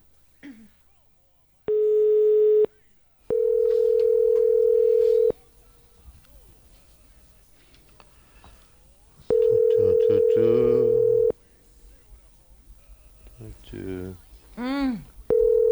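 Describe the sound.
Ringback tone of an unanswered telephone call: three steady, mid-pitched rings, the last two longer than the first, separated by quieter stretches with faint background talk. Voices speak afterward.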